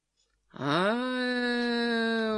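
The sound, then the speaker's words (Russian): A drawn-out, groaning yawn voiced by one person, imitating a school class yawning together. It begins quietly, rises in pitch at the onset, then holds as a loud, steady moan. “«Ох!» — послышался дружный зевок класса.”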